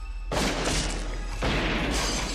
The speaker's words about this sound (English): Scott shoots at Boyette, but Howard fires at him.